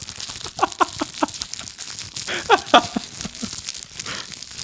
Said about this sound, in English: And that was the sound of Pop-Tart foil crinkling.